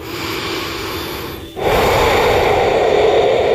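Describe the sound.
Loud breathing, a steady breathy rush of air that dips briefly near the middle and then returns stronger, heard alone without any talk.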